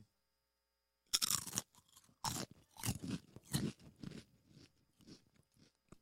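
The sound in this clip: Parmesan garlic potato chips being bitten and crunched: one loud, crisp bite after a moment of silence, then many dry crunching chews that fade and soften toward the end.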